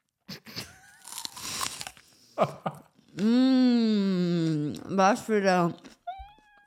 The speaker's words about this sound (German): Was für ein schmackhafter Snack.